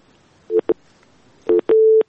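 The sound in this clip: Telephone busy tone after a dropped call: four short, steady mid-pitched beeps in a broken pattern, the last held noticeably longer, sounding alone with no talk.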